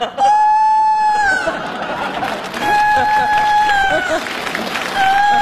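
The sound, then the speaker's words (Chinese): Rooster crowing in a comedy scene: a few long, steady-pitched crows, the last cut short, over a busy background of crowd noise and voices. “这咋还打鸣呢？”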